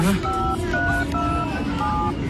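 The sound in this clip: A telephone being dialled to call a hospital for an ambulance, a few short dual-tone beeps in quick succession over a low rumble and background voices.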